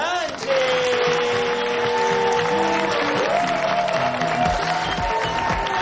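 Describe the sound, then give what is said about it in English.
A crowd applauds as a quinceañera walks out at her celebration. The clapping is steady and sustained, with a held tonal sound running beneath it. “The crowd applauds as Teresa walks out.”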